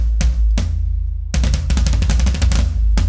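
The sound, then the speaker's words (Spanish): A floor tom drum, the large-diameter tambora standing on legs, is struck: two separate deep, booming strokes ring out, then after a short gap a rapid run of many strokes follows, loud and alone. “hay un tontón que está parado en el piso, o sea que tiene tres patas hacia el piso, uno o más, de un diámetro mucho más grande, que nosotros llamamos también la tambora. Y suena así, intermediario entre el tontón que acabamos de escuchar y el bombo.”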